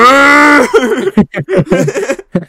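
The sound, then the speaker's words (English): A voice imitates a cow's moo for a darts game show: one drawn-out, low, steady tone, followed by rapid chatter and chuckling. “You throw darts at a board and a cow comes on and goes,”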